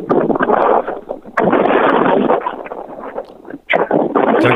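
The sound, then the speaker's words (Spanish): Strong wind gusting outdoors at a fire scene where houses have burned, buffeting the microphone in a loud continuous roar with brief dips between gusts. “El viento ya hace complicada la respiración aquí.”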